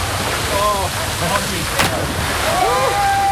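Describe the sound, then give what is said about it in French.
Fountain water rushes steadily as a cyclist prepares to jump in fully clothed after a long ride, and people's raised voices carry over the constant splashing. “Just been talked into going into the fountain, so I'll be getting rid of my phone out of my pocket and jumping in a second.”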